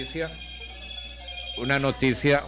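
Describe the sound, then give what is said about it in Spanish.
A mobile phone ringtone interrupts someone. A thin, steady electronic tone carries on under and between a voice that talks over it. “Me interrumpió este celular.”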